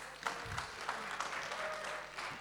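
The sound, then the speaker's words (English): Audience applause after a group's presentation: a faint, steady patter of many hands clapping that runs the whole length with no talk over it. “Give them a round of applause, please.”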